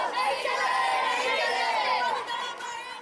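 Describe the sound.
Crowd of protesters in Palitana, Gujarat, Jain followers chanting slogans to close slaughterhouses and ban meat eating; many voices merge into a loud, continuous mass of shouting and chatter that dips slightly near the end.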